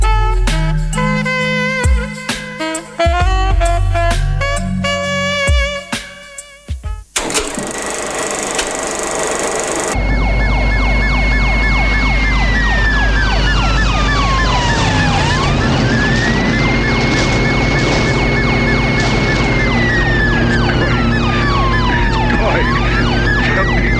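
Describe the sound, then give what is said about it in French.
A police interceptor car's siren in a film scene wails in repeated rising and falling sweeps over a deep engine rumble. Music and a crashing burst of noise come before it. “Et son véhicule, c'est un intercepteur.”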